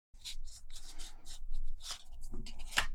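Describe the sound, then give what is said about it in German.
Playing cards being shuffled for a quick card game, heard as a series of soft, papery rasping and riffling bursts that run almost continuously at low volume. “Wir mischen die Karten nochmal neu und spielen abseits vom Mikrofon eine schnelle Partie und vergleichen dann unsere Punkte.”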